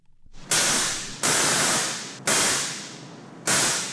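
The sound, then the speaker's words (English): A large replica Tesla coil, caged and suspended above the production plant floor at Bristol Brewery in the Ivywild building, fires four harsh, buzzing crackles after a short rising build-up, each bursting on suddenly and then slowly fading. “That's the sound of a Tesla coil. This particular one, a rather large replica, is housed in a cage and suspended above the floor of the production plant at Bristol Brewery in the Ivywild building.”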